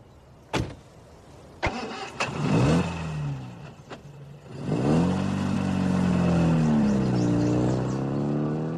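A car engine: a few sharp knocks and thumps come first, then the engine catches and runs steadily, its revs rising and falling as the car drives.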